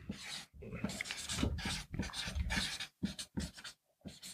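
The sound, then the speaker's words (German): Handwriting scratches across paper in irregular strokes, fairly faint, broken by short pauses between bursts. “So, ich schreibe.”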